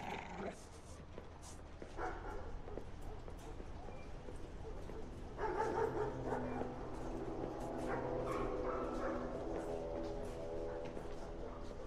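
A dog barks and yips in a few short bursts over a steady, noisy background, the calls loud and sharp without any clear rhythm.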